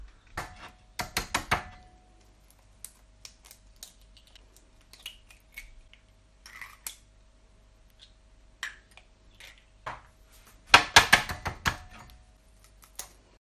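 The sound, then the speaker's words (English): Eggs are cracked and separated into bowls: a few quiet clusters of sharp taps and clicks from the shells, with long near-silent gaps between them. “Then I'll just separate the eggs.”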